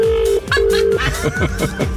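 Two telephones ringing at the same time in a bedroom early in the morning: a steady electronic ring tone in two long bursts, overlapped by a second, busier pattern of tones.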